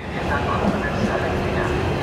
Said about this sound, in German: Ein Zug fährt ein, hunderte Menschen steigen aus. Der schmale Bahnsteig ist übervoll.